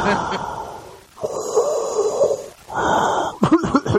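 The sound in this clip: A voice imitates asthmatic, out-of-breath wheezing with three long, rasping breaths, followed by a short burst of talk.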